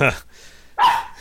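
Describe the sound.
Dogs barking: two short, sharp barks separated by a lull of about half a second, with a faint low hum in between.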